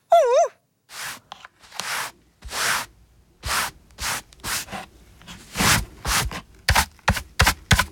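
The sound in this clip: A broom sweeps a library floor after tidying up, making a series of brushy swishing strokes separated by short pauses. The strokes come quicker toward the end.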